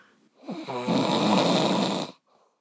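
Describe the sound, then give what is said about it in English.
A man snoring loudly at two in the morning, a single long, rasping, rattling snore that swells quickly and holds steady before cutting off into quiet breathing. “His snoring is so loud that he can't even hear what I'm saying right now.”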